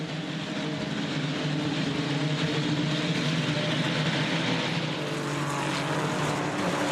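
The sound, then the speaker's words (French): Ferrari Challenge race cars run flat out along a straight at speeds up to 320 km/h, a loud, continuous droning engine roar with steady layered harmonics and no voices. “Vous allez voir que le phénomène d'aspiration dans la ligne droite il fonctionne extrêmement bien avec ces Ferrari Challenge.”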